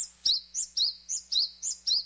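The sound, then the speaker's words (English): A Japanese tit, a relative of chickadees and titmice, calls in a quick steady series of about seven high, bright chirps, each note short and sharp with brief gaps between them. “Researchers studying birds called Japanese tits, relatives of the chickadees and titmice in North America”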